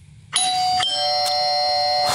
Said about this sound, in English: They don't like ringing doorbells. They're scared of doorbells.